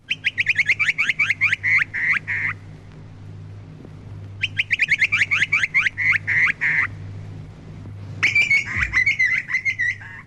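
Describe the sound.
Grey butcherbird call: three bursts of rapid, bright, fluting notes, each lasting about two seconds and separated by short pauses. The last burst is richer and more varied. A steady low hum runs underneath the whole time.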